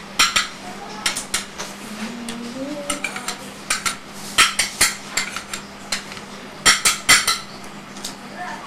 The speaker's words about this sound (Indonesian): Saya masak sayur ini.